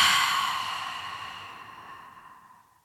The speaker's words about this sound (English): Take a deep breath in through your nose and exhaling through your mouth.